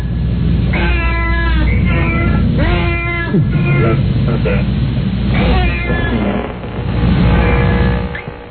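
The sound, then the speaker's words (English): Recorded cat meows and caterwauls play over the radio, with several drawn-out, wavering yowls following one another almost without pause. “when we play the cat sound effects.”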